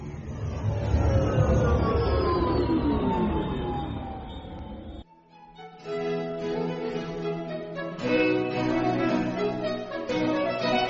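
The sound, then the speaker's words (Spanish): Time machine start-up sound effect: layered electronic tones sweep steadily downward in pitch, cut out briefly, then give way to a sustained, humming chord that swells louder again. “Pongamos en marcha la máquina del tiempo.”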